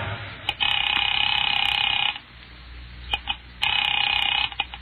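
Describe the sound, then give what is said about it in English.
Telephone line ringing after a number is dialed: two long, loud electronic ring bursts separated by a pause, a bright high tone with a fast buzzing warble, with no talk. “Picking it up quietly, I dialed my daughter's number, Alec Bartlett's wife.”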